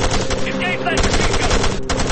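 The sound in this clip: Rapid automatic gunfire from a military war video game: dense, loud, continuous bursts of crackling shots that run together with barely a break from start to end.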